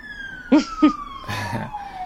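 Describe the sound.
An emergency vehicle siren passing, a steady wailing tone that slides gradually lower in pitch across the whole clip, with brief voice sounds over it.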